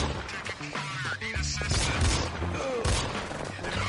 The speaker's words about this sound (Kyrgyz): Баракелде, мындай атышуулар оюнда гана болсун.